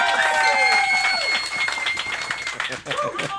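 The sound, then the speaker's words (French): Audience applause at a live evening show in a hall. Loud clapping runs throughout beneath raised voices and shouting. “Applaudissez encore, plus que ça!”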